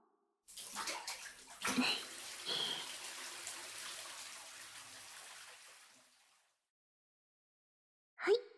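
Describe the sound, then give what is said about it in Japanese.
Water pours from a bath bucket over a child during a rinse, a steady splashing gush that lasts about six seconds with a couple of louder surges near the start, then stops. “このお風呂の桶を使って。気持ちよか？もう一回流すよ。”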